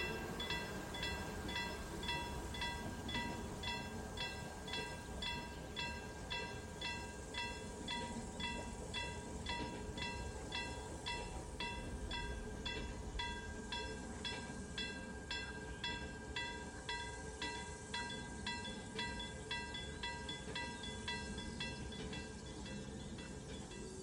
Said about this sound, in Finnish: Ennen asemalle saapumista junamme ohittaa tasoristeyksen, jonka kellot kalkattavat varoittaen viidan poluilla kulkevia ohi ajavasta junasta.